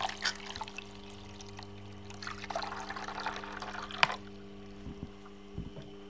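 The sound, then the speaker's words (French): Water is added to a blade during sharpening: soft trickling and dripping over a low steady hum, with a few faint knocks toward the end. “je mets un peu d'eau parce que euh, quand on affûte, en fait, euh, il faut être très vigilant à la chaleur.”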